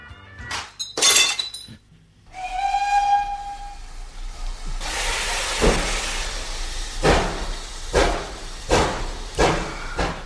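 A champagne bottle smashes against a locomotive with a sharp crash of breaking glass near the start. A sustained train whistle follows, then repeated loud bursts of hissing steam pulse through to the end.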